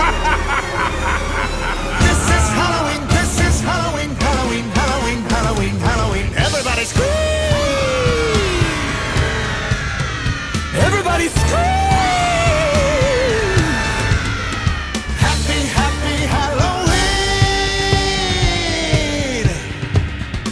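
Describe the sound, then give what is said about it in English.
A crowd screams in a Halloween scream-along: several long, high, wailing screams bend up and down in pitch over a dense, continuous loud din. “we invite you to partake in our favorite Halloween tradition, the scream-along. Any volunteers? Just scream like you're trying to wake the dead!”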